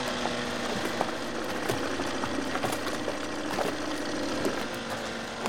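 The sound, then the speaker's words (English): A motorboat engine runs as the boat speeds away from a dock. It makes a steady, dense mechanical drone at an even level throughout, with faint ticks and rattles and no voices. “The boat takes off from the dock. She eyes her ankle monitor as the boat speeds away from the dock.”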